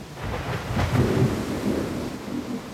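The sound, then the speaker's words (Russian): Thunder rolls through a rainstorm in a forest, a deep, low rumble that swells around one second and lingers over the hiss of steady rain. “Белая молния озарила лесника с ног до головы. Трескучий и короткий удар грома раздался тотчас вслед за нею.”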